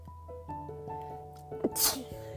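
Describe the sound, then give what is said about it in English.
A single sneeze from a woman talking about her hair, a short sharp burst over faint, steady tonal sounds in the background. “excuse me, I'm not editing that, I sneezed, but excuse me.”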